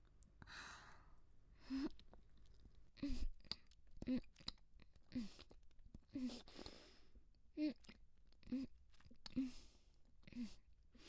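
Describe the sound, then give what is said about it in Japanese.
Soft, wet chewing sounds from someone chewing food well to soften it, quiet, close and repeated many times in an uneven rhythm, with breaths and faint whispery mouth noises between. “私がよーく噛んで柔らかくして食べさせてあげるから。”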